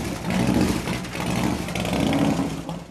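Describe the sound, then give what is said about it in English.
Harley-Davidson motorcycle engine rumbling as the bike backs out of a garage, a steady, dense low growl holding at a fairly even loudness with slight swells throughout. “Jahi backs his Harley out of the garage. Morgan follows on her purple Suzuki.”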